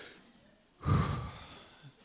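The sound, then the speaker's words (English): A deep breath drawn in during a church service, heard as one quiet, airy intake lasting about half a second, with a faint short breath near the end. “Let's all stand. And take a deep breath. Take a deep breath in.”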